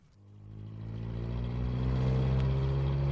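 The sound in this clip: Car engine running with a steady low hum that gradually builds in loudness, with no voices.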